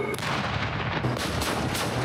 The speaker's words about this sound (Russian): войск «Центр» в зоне специальной военной операции достигаются проведением ежедневной подготовки с боевой стрельбой танковых экипажей при взаимодействии с боевыми машинами поддержки танков «Терминатор».